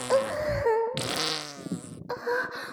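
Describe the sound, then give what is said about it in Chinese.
Flatulent farting in a few drawn-out, sputtering blasts with a buzzing, wavering pitch. The sound is fairly loud and heard alone. “哎呀，我又要放屁了！”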